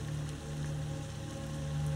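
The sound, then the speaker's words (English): Pouring rain falls on grass and mud, making a dense, continuous hiss that stays even and fairly faint throughout. “kneeling in the grass and mud in the rain. It's pouring rain all around you.”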